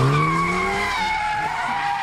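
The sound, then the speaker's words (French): Tires squeal as a car spins donuts with a Formula 1 driver at the wheel, a loud, sustained screech whose tonal harmonics waver and shift throughout, without talk. “Ce que vous entendez là, c'est la voiture qui fait des ronds. Alors avec moi évidemment à l'intérieur, ce qu'on appelle des donuts, car on fait des ronds en forme de gâteau.”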